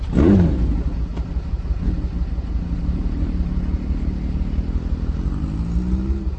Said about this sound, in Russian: давай, заводи мотор.